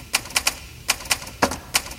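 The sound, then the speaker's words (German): Typewriter typing: seven crisp mechanical keystrokes in an uneven rhythm, sharp clacks separated by short pauses, with no voices. “Das kennt man, oder? Ja, ganz klar ist eine Schreibmaschine.”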